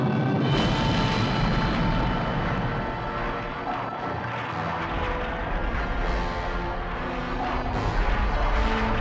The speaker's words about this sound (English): There's this big blast of energy coming towards the Enterprise right now.